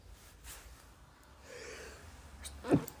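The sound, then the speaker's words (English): A single sneeze from a person: a short, sharp burst of breath near the end, fairly faint against low background hiss, with no talk around it. “apologies, that was a sneeze.”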